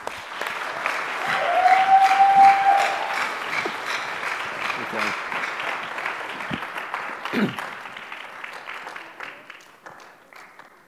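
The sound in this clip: An audience claps to welcome a guest preacher up to give the sermon. The applause is dense and sustained, swells early and then slowly thins out, with some voices mixed in.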